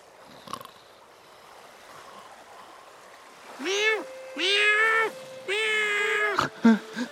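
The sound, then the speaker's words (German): A cat meows in three drawn-out, wavering calls that grow louder, followed by a few short, sharper sounds. Before the meows there is only a faint, low background. “Oh, Katze hat mich geweckt. Miau!”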